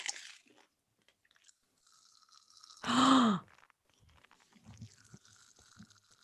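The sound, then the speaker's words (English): Someone chews a large mouthful of candy, making faint, irregular wet mouth sounds and crunches. A louder voiced groan or grunt breaks in midway. “It's a lot of candy in my mouth at one time.”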